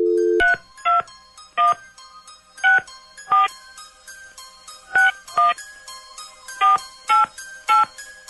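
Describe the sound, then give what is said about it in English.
Telephone keypad tones as a number is dialled at random: a short steady dial tone, then many crisp two-tone beeps in uneven clusters with gaps between them, loud and clear with no talk. “Dialing at random.”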